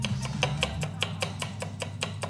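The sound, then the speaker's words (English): A knife thinly slicing garlic cloves for classic Italian meatballs makes many crisp, evenly spaced taps in a steady, quick rhythm. “A couple of cloves of garlic. Slice the garlic really nice and thinly.”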